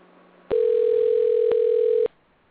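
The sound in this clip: A telephone dial tone sounds as a call is being placed: one steady, mid-pitched electronic tone lasting about a second and a half, alone over faint background hiss.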